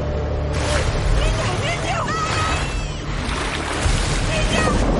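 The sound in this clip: Rushing, churning river rapids carry an upturned boat, a continuous loud roar of turbulent water with no break.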